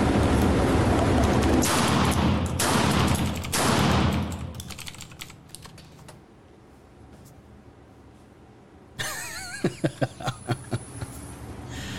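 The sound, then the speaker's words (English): Loud, sharp blasts from a 12 gauge shotgun firing ordinary birdshot ring out at the start, then fall to a quieter stretch before a rapid run of crisp cracks and impacts closes the passage. “One last time. Now I'm going to use 12 gauge.”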